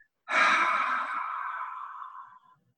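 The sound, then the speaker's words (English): A gentle breathing exercise: one soft, airy breath through the mouth, starting firmly and slowly fading over about two seconds, heard alone without talk. “take a gentle inhale in through the nose. And I want you to imagine you're in the bathroom and you're fogging up the mirror as you exhale out of your mouth.”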